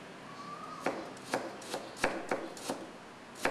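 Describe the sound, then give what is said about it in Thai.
Crisp knife strikes as food is thinly sliced: a run of several sharp, fairly evenly spaced cuts, each a brief bright click, alone with no talking. “ลอกเอาเนี่ยออกนะครับแค่นี้เองนะครับแล้วก็หั่นนะฮะแล้วเราก็ซอยบางๆนะครับ”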